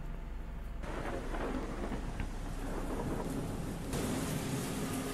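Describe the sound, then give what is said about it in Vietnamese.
Steady rain outside at night, a dense, continuous hiss of falling water with a low rumbling underneath, unbroken for the whole stretch and with no voices. “tiếng khóc tỉ tê của bà Mầu vẫn cứ vang lên trong tiếng gió, tiếng mưa ở bên ngoài, càng làm cho không khí thêm ảm đạm.”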